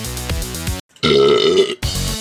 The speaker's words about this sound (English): Pardon my burping.